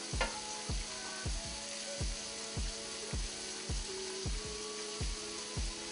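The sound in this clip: Smoked turkey sausage sizzles in a pan with a steady bright hiss, broken by regular knocks about every half second throughout, like a utensil stirring or tapping the pan.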